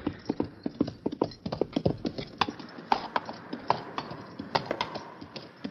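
A horse's hooves clop as it is ridden into a cave, with many sharp hoofbeats in a steady, brisk walking rhythm, continuous and fairly distinct.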